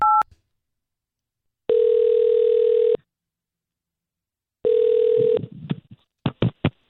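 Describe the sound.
A telephone call is placed: a brief dialing beep, then two long, flat ring tones separated by silence, the second cut short by a few sharp clicks as the line is picked up.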